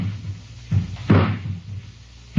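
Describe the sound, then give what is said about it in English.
Ladder being put against the side of a house, heard as a few dull knocks and thumps, one louder than the rest, over a low steady background hum. “someone's putting a ladder against the side of the house.”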